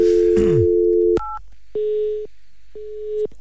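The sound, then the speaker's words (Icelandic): Telephone busy signal: two evenly spaced, equal-length mid-pitched beeps. They follow a steady dial tone and a brief keypad tone. “Heyrðu, gamla góð á tali”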